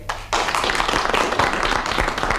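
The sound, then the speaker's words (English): An audience claps to vote on a challenge during a comedy panel game, the applause starting abruptly and carrying on as a loud, dense, even wash of many hands. “Do you think that Clement Freud's challenge of landing was justified? If so, will you please clap?”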